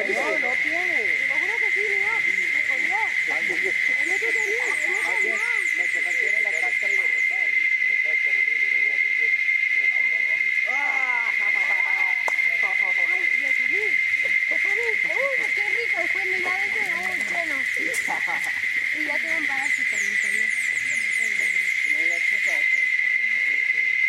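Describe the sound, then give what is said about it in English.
Insects in the trees of Baruca, an indigenous village, keep up a steady high-pitched drone without a break, while fainter varied calls and sounds shift beneath it. “Those are insects in the trees here in Baruca, where I am right now, an indigenous village.”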